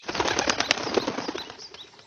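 A piapoco, a toucan, flaps its wings as it takes flight. The wingbeats come as a rapid, loud burst of fluttering that weakens toward the end.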